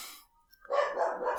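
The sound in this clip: A dog barks once, a short loud harsh burst that follows a quiet gap and runs to the end.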